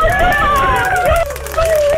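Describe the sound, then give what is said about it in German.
Grandchildren's high-pitched voices chattering continuously in the background, loud and lively, with no pause across the short stretch. “Wer ist denn da im Hintergrund? Ja, meine Enkel eben.”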